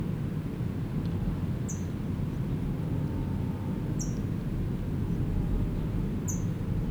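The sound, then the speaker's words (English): An adult brown towhee chips near its nest, three brief, faint, high chips spaced a couple of seconds apart over a steady low rumble. “Adult is chipping, it's got food in its bill, and I'm hoping it will go in, but I doubt it.”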